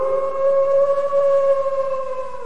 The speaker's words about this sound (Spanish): Los ladridos del perro eran estremecedores.